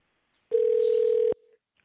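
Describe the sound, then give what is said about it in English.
A telephone ring tone sounds on a dialled call: one steady, mid-pitched beep of under a second starts abruptly from silence and cuts off cleanly, followed by quiet. “Okay, there we go. Let's dial that number.”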